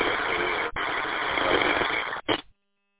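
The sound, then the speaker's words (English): A diesel engine idles under a radio transmission through a repeater, giving a steady, narrow-band rumbling drone. It cuts out briefly twice, then stops abruptly. “you sound good through the repeater, but it sounds like you got a diesel engine idling.”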